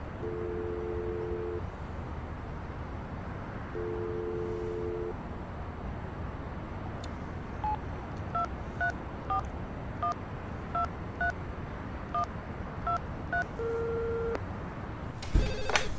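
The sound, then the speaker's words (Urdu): A telephone line ringing for an office room nobody answers: two long ringing tones separated by a pause, then a quick run of touch-tone beeps at varied pitches. “Phone اٹھاؤ فرجام صاحب۔”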